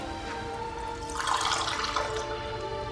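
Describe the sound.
Fresh water is poured out for a drink, a soft splashing pour lasting about a second over a steady low hum, quiet throughout.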